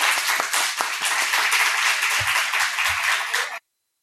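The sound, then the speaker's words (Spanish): Audience applause for three guests at the close of a talk event, a dense, steady wash of many hands clapping at an even level for about three and a half seconds before cutting off abruptly. “lo que sí que os pido es un aplauso para los tres que han estado aquí.”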